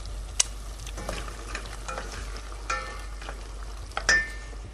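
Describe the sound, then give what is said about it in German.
Food simmers in a pan with vinegar, giving a soft, steady sizzle. A few sharp knocks and scrapes from stirring cut in now and then. “So, das lasst ihr jetzt einfach ein klein wenig gar ziehen. So simmern.”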